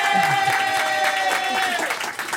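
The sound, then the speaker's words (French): Studio audience of a French TV talk show applauding, a dense, steady wash of clapping that fills the whole clip with even loudness. “Mais si, je fais applaudir le public.”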